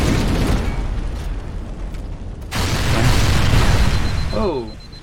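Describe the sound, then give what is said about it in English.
Spaceship blowing up in a dramatized scene: loud, continuous roaring explosion rumble with crackling fire noise. A sharp break comes midway, then a renewed blast builds before fading. “ship is blowing up around us. Everything is on fire. That's what you don't want your spaceship to be, Brian.”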